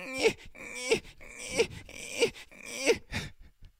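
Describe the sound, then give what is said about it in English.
A man's voice imitates Eli Manning whining and crying. It is a series of repeated, pitched groaning wails and sobs in a fairly regular rhythm, loud and alone. “Play the clip. He starts whining and crying.”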